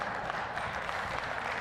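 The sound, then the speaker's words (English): Audience applause for a reader who has just finished a reading, a dense, even clapping texture that holds steady for the whole brief moment. “Give Jim a round of applause.”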